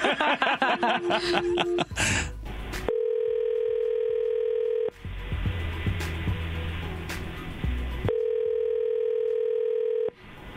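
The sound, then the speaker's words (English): Telephone dialing: a rapid run of keypad tones, then a steady ringback tone. It rings in two long stretches separated by a gap filled with muffled noise. “So let's call her and see if we can't figure out what's going on.”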